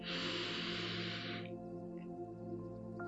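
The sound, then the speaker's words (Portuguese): A deep breath in during guided meditation, a soft airy inhale lasting about a second and a half, then fading out over a quiet, steady sustained musical drone. “neste momento, você inspira com atenção”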